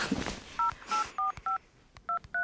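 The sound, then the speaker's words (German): A telephone number is dialed on a touch-tone keypad: six short, clear beeps, four and then a pause before two more, over a quiet background. “Weißt du was? Ich rufe Fred einfach an.”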